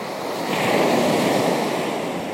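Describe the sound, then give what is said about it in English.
Ocean waves crash in a continuous, roaring wash of surf with wind noise, swelling slightly louder through the middle before easing back; no voices. “the constant wave crashing, it takes the significance away.”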